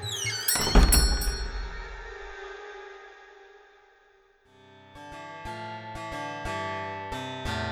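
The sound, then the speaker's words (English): A door flies open with one heavy, booming thud that rings and slowly decays over a few seconds. A melodic tune of plucked, bell-like notes then starts and carries on to the end. “As the door now flies open,”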